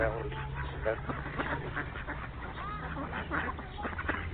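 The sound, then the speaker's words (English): Many ducks quack at once in a dense, overlapping chorus of nasal calls that continues throughout, with a voice talking over the flock. “that's a lot of ducks there. That's almost too many ducks.”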